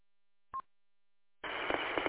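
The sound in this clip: A brief telephone keypad tone sounds, accidentally sent over an amateur radio repeater link. After a silent gap, a steady, hissy, band-limited burst of noise follows.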